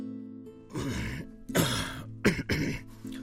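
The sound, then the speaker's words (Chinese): A voice imitates the dry, hacking cough of a man with tuberculosis: a series of rough, raspy coughs and throat-clearing bursts, the middle ones sharper and louder. “看着那些好像香烟烟雾的阴影，他突然感到肺里很痒，大块的结核菌好像要从嗓子眼里冒出来一样，不由得干咳起来。”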